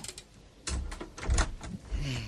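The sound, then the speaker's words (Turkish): A door is closed as someone leaves at night, giving a few faint knocking and rattling thumps, the heaviest in the middle of the sequence. “ben çıkarken kapıyı kapatırım”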